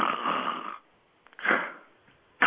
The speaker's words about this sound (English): It might have been him just falling asleep and snoring.